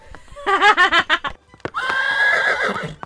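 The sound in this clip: A horse neighs in a loud whinny of quick, wavering pulses, then a steady breathy rush of sound follows for the rest of the moment.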